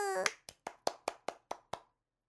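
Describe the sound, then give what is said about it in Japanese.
Hand clapping as praise: a brief cheering voice, then eight quick, evenly spaced, quiet claps with a steady rhythm, followed by silence. “イエーイ、拍手。”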